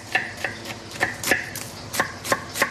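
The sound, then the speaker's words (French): A knife chops two onions finely in a chef's kitchen, giving a series of crisp, slightly irregular strikes, each a short sharp tap. “Donc là, on va ciseler deux oignons.”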